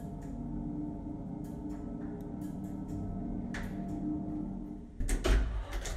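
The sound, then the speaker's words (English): An elevator rises one floor with a steady low hum and faint ticks and clicks, then a louder clunk and rattle near the end. “The elevator takes me up a floor.”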